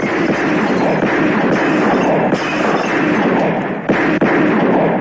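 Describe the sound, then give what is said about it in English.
Deafening, continuous gunfire from a weapons test with machine guns in a film scene: a dense, unbroken wall of harsh, loud blasts and rumble that holds at full volume throughout, with no single shots standing apart. “We hard cut to a deafening weapons test.”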